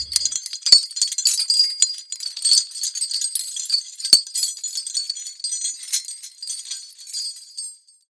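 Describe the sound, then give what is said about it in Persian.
Heavy broken chain thrown onto the ground: bright metallic jangling and clinking that rattles on continuously for several seconds, heard alone, then cuts off. “شیطان زنجیر زخیم شکافته شده ای را روی زمین انداخت”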